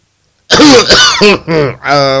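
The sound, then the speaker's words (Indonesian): Coughing from a singer introducing a song: a few loud, throaty, voiced coughs in quick succession after a moment of silence. “alamak, aku tengah batuk lah. Sorry dia kena baju.”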